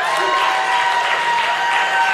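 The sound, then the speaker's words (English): Church audience applauding: dense, steady clapping from many hands filling the whole stretch at an even level, with faint crowd noise mixed in. “I just got to say your name and they start clapping.”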